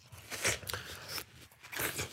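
Teeth bite into a very ripe, hollow fruit with a yellow spot, giving a few soft, moist crunches. They are quiet and separated by short pauses, with no talk.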